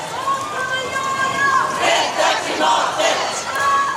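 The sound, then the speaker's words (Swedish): Crowd chanting at a climate demonstration in the streets of Stockholm: many voices shout in loud, rhythmic call-and-response waves that rise and fall over a constant roar. “Vi tar mer från denna demonstration redan nu. Så här lät det.”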